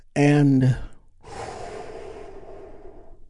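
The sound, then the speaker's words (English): A deep breath taken during a guided relaxation moment: a short voiced, tonal intake is followed by a long, steady, breathy exhalation that fades gently, with no talk over it. “take a big, deep, healing breath with me right now.”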